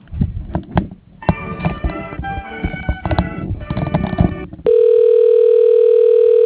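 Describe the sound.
Telephone line audio during a call transfer to voicemail: a stretch of muffled, narrow-band line sound gives way to a steady, unbroken tone that holds through the last couple of seconds.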